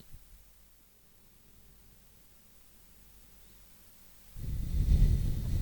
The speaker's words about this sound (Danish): tage et par dybe indåndinger